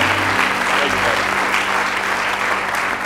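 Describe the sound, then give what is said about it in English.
A church audience clapping their hands in praise during a worship service: loud, dense, sustained clapping from many people, unbroken from start to finish. “Give the Lord one more good hand clap of praise.”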